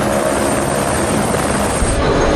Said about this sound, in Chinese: 田才让和邓理财申请使用直升机，将工程人员和设备运到塞斯腾山海拔4200米的 C 点